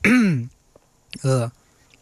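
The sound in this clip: Someone clears their throat in two rough, loud bursts separated by a short pause.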